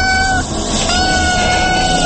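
Kitten meowing in drawn-out, steady-pitched cries over a loud, dense noisy background.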